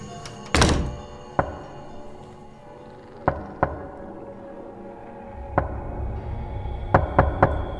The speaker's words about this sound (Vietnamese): Tiếng gõ cửa vang lên rất rõ ràng ở trong màn đêm.